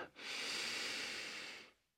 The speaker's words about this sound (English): Deep breath all the way into the soles of the feet.